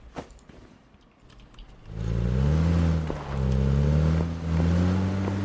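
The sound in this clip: Car engine in a video game: after a quiet opening, a steady low engine drone comes in about two seconds in and holds loudly to the end, dipping briefly a couple of times, with no talk.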